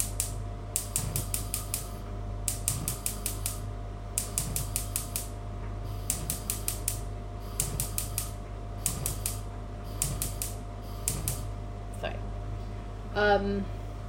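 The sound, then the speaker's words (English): Rapid ticking of a new gas hob igniter, repeated in eight quick bursts of fast clicks separated by short pauses, with a brief voice near the end. “Ooh, I got a new hob. Listen to the click. Nice, right? Also, fire.”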